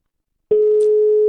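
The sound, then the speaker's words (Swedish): A telephone tone heard while calling someone back: a single steady, low-pitched electronic tone that starts abruptly and holds unbroken to the end, alone without speech. “Samtidigt som vi nog får ta och ringa upp Per igen.”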